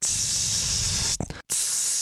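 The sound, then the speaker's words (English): A voice imitates a perfume atomizer spraying, a long, loud, steady breathy hiss. It breaks off briefly with a short vocal sound, then resumes just as strongly. “it was essentially spraying myself with Glade, you know, like a constant spray.”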